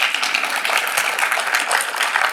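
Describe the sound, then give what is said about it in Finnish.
Audience applause welcomes an author at a literary event: a dense, steady patter of clapping hands at moderate volume that lasts the whole short stretch. “Oikein lämpimät tervetuloa aplodit Satu Hassille.”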